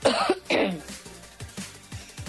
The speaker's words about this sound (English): Hold that cough.